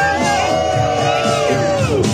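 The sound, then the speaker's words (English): A crowd of Democratic supporters cheers for a former senator as early voting opens in Ohio, a dense, continuous wall of shouting and whooping voices held at a steady, loud level throughout. “Democrats cheering on former Senator Sherrod Brown, who voted today as early voting began in his state.”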